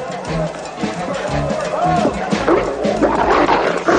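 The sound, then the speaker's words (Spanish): A dog lunges at and attacks a man during a brawl among customers in a 1990 action police film. Dense, loud barking and snarling runs throughout, mixed with a steady wash of other noise. “justo cuando un perro se le abalanza”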